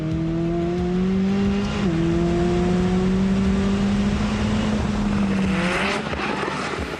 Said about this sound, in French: le plaisir de rouler décapoté, c'est excellent, quoi, ça amplifie le son du moteur